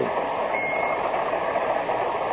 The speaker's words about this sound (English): What the hell is that noise? Oh, sorry. I've got a pocket alarm watch, and it keeps trying to tell me something.